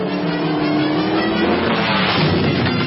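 A car engine roars hard as the car reverses out of a snowdrift it crashed into and then drives along a snowy road. The loud, straining sound runs continuously throughout.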